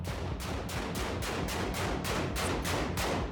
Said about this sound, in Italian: Sparano contro una porta, ma la cosa più strana è che si stanno filmando tra di loro.